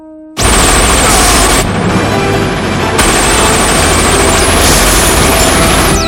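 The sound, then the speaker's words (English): Automatic gunfire bursts out after a brief quiet moment as a character guns down council members in a film. It is a loud, sustained, dense barrage with a high whine riding above the shots. “The council members are horrified. He guns them down.”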